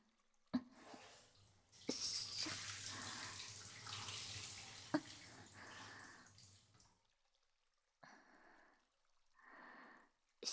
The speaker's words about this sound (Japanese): お湯流します。